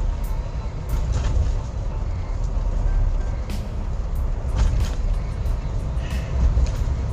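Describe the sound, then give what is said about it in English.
Road noise from a car being driven, a steady low rumble that holds at an even loudness throughout, with a few faint higher ticks over the top. “sorry if you hear that I'm currently driving”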